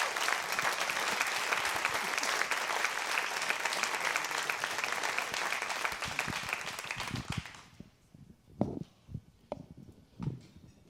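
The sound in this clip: A church audience applauding a guest speaker, with steady, dense clapping for about seven and a half seconds before it dies away into near quiet broken by a few faint sounds.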